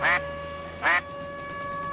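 Two harsh, nasal duck quacks ring out, separated by a short pause, over a faint steady hum.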